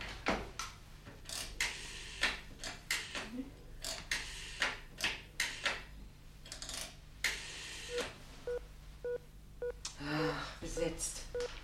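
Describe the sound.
A telephone number being dialled: a long series of sharp mechanical clicks in irregular bursts, followed near the end by a few short, steady tonal beeps.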